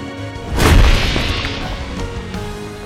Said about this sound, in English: A full wall of stone shot up from the ground between us and the jewel hunters. It then lurched forward onto them.